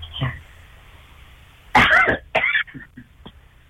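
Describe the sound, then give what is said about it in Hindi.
Coughing from a person whose voice and throat are sore: two loud, harsh coughs in close succession, then a few fainter throaty bursts, heard alone without talk. “बहुत खांसी हो रही है”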